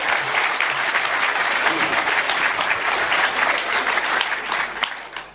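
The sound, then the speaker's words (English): A conference audience gives warm applause to welcome a guest speaker on his first visit to Australia. Thick, continuous clapping stays even throughout and tapers slightly at the very end. “So please give him a big warm Nexus conference welcome.”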